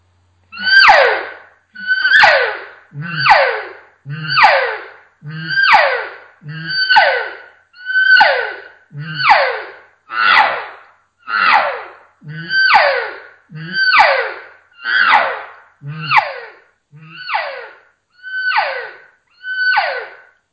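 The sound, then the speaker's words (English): High-pitched cow calls blown on a call to attract bulls: many loud, squealing, descending calls repeat in a steady rhythm, about one every second, each falling sharply in pitch with a harsh, breathy edge. “you can also implement high-pitched cow calls, and it just tends to turn up the emotion in what you're putting out there to the bulls, and it's going to sound like this.”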